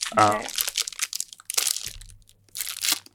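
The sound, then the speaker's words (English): Crinkly, bubble-wrap-like plastic packaging being opened for snack time, heard as a few sharp, crunchy crackling bursts with pauses between, with a brief voice sound near the start. “Ooh, it's like bubble wrap. This is nice. This is like the best packaging we've had so far. All right, let's pop that boy open for some ASMR.”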